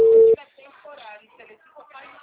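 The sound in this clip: A busy signal on a phone call: one loud, steady, low beep lasting a fraction of a second, then someone talking.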